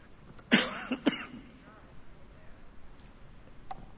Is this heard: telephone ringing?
no